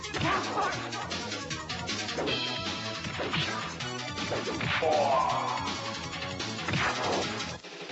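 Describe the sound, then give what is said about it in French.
Fighting-game combat from TMNT Tournament Fighters on the Super NES: many loud smashes, whacks and crashes that follow close on each other in a busy, continuous flurry of hits. “Médaille de bronze, c'est le tout nouveau Tortue Ninja TMHT Tournament Fighters sur Super NES. Et c'est un jeu de baston et excellent avec tout ça.”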